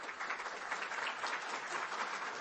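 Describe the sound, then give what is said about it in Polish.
Steady audience applause, dense and continuous at an even loudness from start to finish, with no voices heard over the clapping. “rozumiem, że pani mi odliczy te oklaski.”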